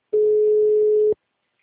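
A steady telephone line tone sounds after a phone call is cut off: one even, mid-pitched beep lasting about a second, alone, then silence.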